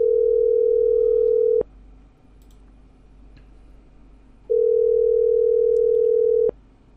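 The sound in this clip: Ringback of an outgoing telephone call: two long, steady single-pitch tones separated by a quiet gap, each cut off with a click, over faint line hiss.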